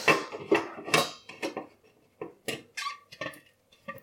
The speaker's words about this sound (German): Da bin ich gegen eine Spitze in der Oberfläche der Plastikschüssel gekommen.